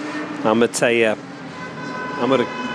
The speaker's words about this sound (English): Well, that noise is the Athens traffic.